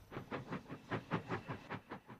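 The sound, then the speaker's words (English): A steam train chugs along a track through the English countryside in 1929. Faint, steady, rhythmic chuffing pulses repeat at an even pace. “A steam train chugs by, puffing white clouds from its funnel.”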